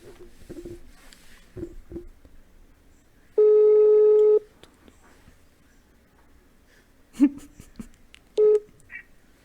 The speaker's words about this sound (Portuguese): Vou pôr no Viva Voz, você pega aí. Hã? Põe no microfone assim, aperta. Vamos ver se ele vai atender.